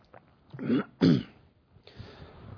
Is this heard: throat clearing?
yes